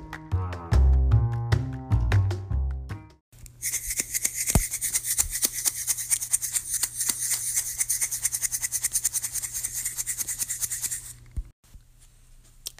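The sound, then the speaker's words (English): A salt shaker being shaken steadily for about eight seconds, giving a dense, gritty rattle of many rapid taps. A short musical jingle comes before it, and it ends abruptly into quiet. “That's the sound of a salt shaker.”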